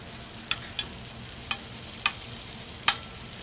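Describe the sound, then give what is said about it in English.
Sliced garlic sizzling in hot olive oil in a sauté pan, heard as about five sharp, faint crackling pops spread over a soft, steady hiss. “I'm going to start off with the sliced garlic into the pan.”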